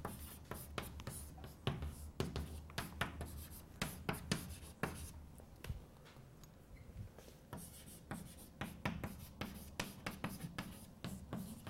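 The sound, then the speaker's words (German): Writing on a board during a lecture produces many short scratchy strokes in quick, irregular bursts, with a brief lull near the middle before more strokes follow. The sound is fairly faint, and no one talks. “Schreibe ich mal dahinter, Klassiker.”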